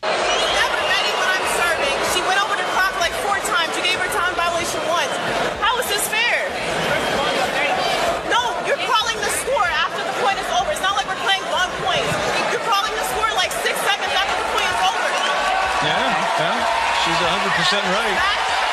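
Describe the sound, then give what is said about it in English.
A tennis crowd at the US Open murmurs in frustration during a match, a dense, unbroken wash of many voices that holds steady and fairly loud throughout, with talking heard over it. “And what you hear is the audience behind her because the crowd was also getting frustrated with this.”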